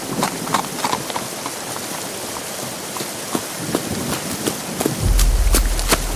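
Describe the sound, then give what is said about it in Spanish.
Heavy rain pours down in a radio drama scene with tired horses, a dense steady hiss dotted with sharp drops and clopping hooves. A low rumble joins in during the final second. “¡Ya se soltó el aguacero!”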